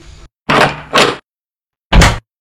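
A door being opened at home, heard as a loud double clunk of wood and latch, then a pause and a single heavy thud.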